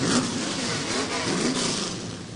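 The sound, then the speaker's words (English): Several race car engines run at once, making a loud, dense, steady roar with slight revving swells throughout. “On the count of three, 3, 2, 1. Start your engines.”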